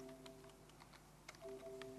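Faint typing on a computer keyboard that keeps failing to respond: a few scattered, light key clicks over a steady low electrical hum.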